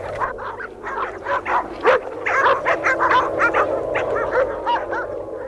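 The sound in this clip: Several dogs whine and yip at a house as someone arrives, a busy, overlapping stream of high, wavering cries and short yelps over a low, steady hum.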